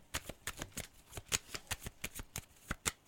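A deck of cards shuffled by hand before one card is drawn in a card reading: many crisp, sharp riffling clicks and slaps in an uneven, fast rhythm, with no talk.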